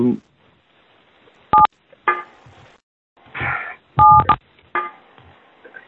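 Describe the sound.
Telephone keypad beeps during a meeting: two short dual-tone key presses, clear and separated by a few seconds, with a voice talking in between.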